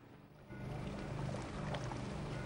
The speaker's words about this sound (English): On the water's surface, the rescue yachts appear as black dots in the distance. They race across the water, spewing water in their wake.